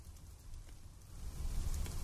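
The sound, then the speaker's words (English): Light rain still falling as a heavier shower eases, a faint, steady patter and hiss over a low rumble that grows slightly louder in the second half. “The rain hadn't completely stopped, but had at least receded back to what it had been earlier.”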